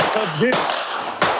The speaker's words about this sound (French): En pleine journée, devant les caméras, ce jeune tire en l'air, au milieu des tours.